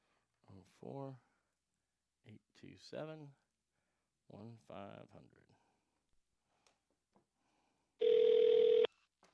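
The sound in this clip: A phone call is placed as a person speaks a few short phrases with pauses between them. Near the end a single steady ringback tone sounds on its own, loud and lasting just under a second.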